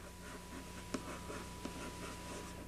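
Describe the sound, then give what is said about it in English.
Faint scratching of writing during a mathematics lecture, with a couple of small sharp taps over a steady low hum. “So let's write that down over here. Let's write what that says.”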